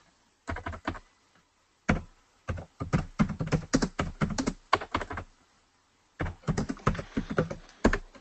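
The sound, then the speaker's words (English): Fingers type on a computer keyboard, producing many sharp key clicks in quick irregular bursts broken by brief pauses. “In case you wonder, I type in A B C D E.”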